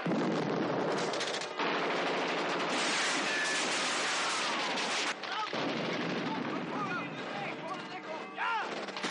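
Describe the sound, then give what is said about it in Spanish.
Dense gunfire fills a battle scene from a 1970 war film, in which an American assault cuts down German troops. Rapid machine-gun bursts and heavy artillery-like blasts keep up a continuous, loud barrage, with a brief lull midway and voices audible near the end. “Los alemanes van cayendo muertos en su mayoría debido a los disparos recibidos de todas direcciones.”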